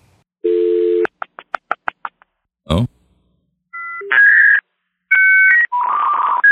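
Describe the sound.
A dial-up internet modem connecting: a steady dial tone, then a quick run of keypad tones and a short burst. Loud, shrill warbling and screeching handshake tones follow.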